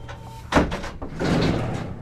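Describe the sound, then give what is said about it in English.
A heavy steel prison door: a loud, hard bang followed by a longer rough, grinding rumble like the door sliding, both dense and booming. “Inside Enfield Correctional Institution, there are all the expected security measures. Huge steel doors,”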